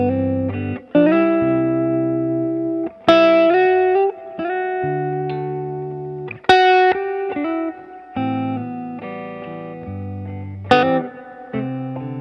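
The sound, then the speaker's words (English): Electric guitar played through the neck pickup, giving a warm tone: a series of ringing notes and chords, each struck sharply, then sustained and slowly decaying before the next, with no voices. “Okay, so here's like your normal neck pickup sound.”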